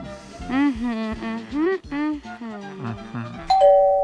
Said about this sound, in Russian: Ой, кто-то пришел. Ну вот, начинается. Ходят, звонят, мешают работать.